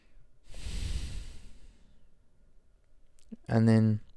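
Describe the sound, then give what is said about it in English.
A deep breath taken in a single airy rush lasting about a second. A brief quiet follows, then a voice begins speaking. “So let's just take a breath before we fully get into it.”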